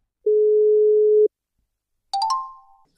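Telephone line tones while placing a call: one steady low tone lasting about a second, then, after a short gap, a brief higher tone that steps upward in pitch and fades away. No voices are heard.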